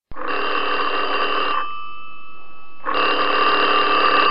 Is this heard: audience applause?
no